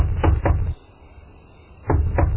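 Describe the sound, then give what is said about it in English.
Knocking on a door at night: two short bursts of loud, low knocks separated by a quiet pause. “Someone is knocking on our door. Who will come to us at this time?”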